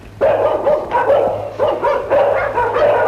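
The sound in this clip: A dog barks in a rapid, insistent series of many loud barks, each burst close on the last, across the whole stretch with no talking.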